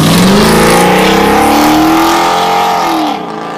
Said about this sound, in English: A car just passed.